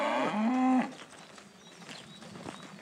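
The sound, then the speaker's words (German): Cattle on a farm at the edge of Hamburg: one loud, deep, drawn-out moo lasting under a second, followed by faint background noise. “Am Stadtrand Hamburgs betreiben sie viel Aufwand bei ihrer Rinderhaltung mit wandernden Tieren.”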